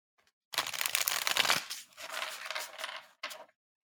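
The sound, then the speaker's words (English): A card is pulled from a Jungian tarot deck, with a few crisp bursts of cards rustling and sliding against each other and nothing else heard. “I'm kind of thinking we should just like pull a card real quick and kind of see where it takes us.”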